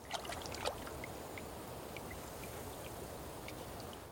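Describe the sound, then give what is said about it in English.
Water trickling and lapping at a waterside as blood is rinsed off a stone-tipped arrow, a few light clicks and splashes at first, then a steady gentle wash. “At the waterside, Kare washes blood off the arrow their man was shot with.”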